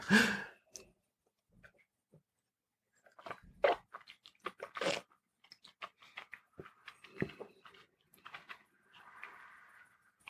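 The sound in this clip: Mouth noises while tasting Highland Park Dragon Legend whisky: faint smacking, sipping and clicking sounds come in scattered bursts. Pauses and soft breaths fall between them.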